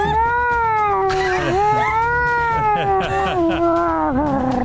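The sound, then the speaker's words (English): A voice imitates a distressed, dying baby Yaruk with one long, cat-like wailing cry whose pitch wavers and dips several times. “To our right, I'm going to put 30 feet into the distance the sound of a baby Yaruk dying or distressed. Can you give me a little hint of what that sounds like?”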